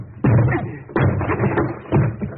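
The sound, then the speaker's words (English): Heavy thuds of a door being broken down, three loud booming blows at roughly even intervals, each with a deep, resonant body and a short decay. “I'll have to break this door down”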